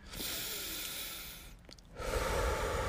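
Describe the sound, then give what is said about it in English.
Slow, calm breathing in and out: a long soft breath, a brief pause, then a louder, fuller breath, with no talking. “Breathing it in,”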